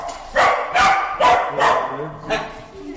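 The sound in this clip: Dogs barking in a city: five loud, sharp barks in an uneven rhythm, roughly evenly spaced at first, with a longer pause before the last one.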